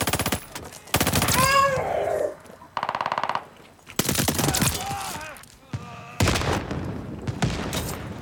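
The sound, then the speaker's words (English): Gunfire in a shooter video game: loud bursts of rapid automatic fire, several volleys broken by short pauses, with sharp repeated cracks throughout. “I'm gonna shoot that guy for sitting still, idiot. Ooh, what a shot.”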